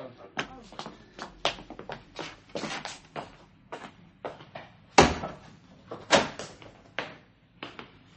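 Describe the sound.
A shop door being unlocked and opened, heard as a string of many sharp clunks, knocks and rattles in an uneven rhythm, with two louder bangs near the end.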